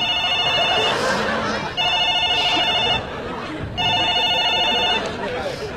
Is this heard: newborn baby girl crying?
no